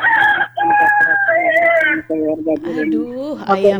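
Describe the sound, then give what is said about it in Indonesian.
A rooster crows loudly in a few long, wavering calls with short breaks between them. The calls are strong and harmonic, rising and falling in pitch. “Aduh, ayamnya.”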